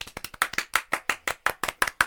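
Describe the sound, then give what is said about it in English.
Crisp, sharp handclaps ring out in a steady, evenly spaced rhythm, about a dozen distinct claps, as applause for actor Wilson Cruz. “Can we give a round of applause for Wilson Cruz?”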